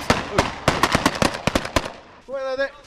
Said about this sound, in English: Suddenly we've just come under attack from the side, from some mock enemy up ahead, and the forces are running for cover, diving into the snow beside the road here and beside this one building.